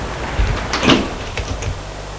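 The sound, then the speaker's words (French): A door closing behind people entering: a dull low thump and then a brief, sharper clack over a steady background noise. “La porte se ferme derrière eux.”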